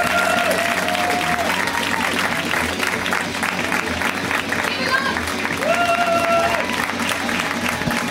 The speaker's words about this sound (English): Please give a warm welcome to Emma Wellman, you guys. Let her hear it.